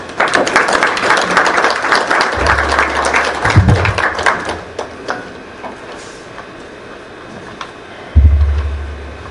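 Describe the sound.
Audience applause welcoming a speaker at a recovery meeting for alcoholics: a dense burst of many hands clapping that thins out and fades after several seconds, with a few low thumps along the way.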